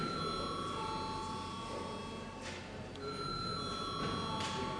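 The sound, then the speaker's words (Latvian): An electric bell rings before a parliamentary vote, a faint, steady high ringing tone that runs through the whole clip with a brief break midway, over low background noise. “Lūdzu zvanu.”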